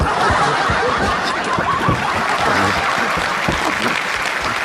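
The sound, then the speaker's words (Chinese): Audience applause for a two-person stage act, a thick, continuous patter of clapping mixed with chuckles and laughter from the crowd, loud and steady throughout. “谢谢大家的掌声，你们掌声，我俩真有劲儿”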